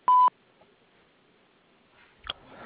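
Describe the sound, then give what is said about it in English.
An answering machine beep: one short, loud, steady tone, followed by near silence and then a faint click and soft rustling. “At the beep, please leave a message.”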